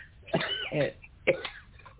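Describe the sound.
A few rough, throaty coughs and throat-clearing bursts from someone who has just swallowed an energy drink, set apart by short pauses over a faint background hiss.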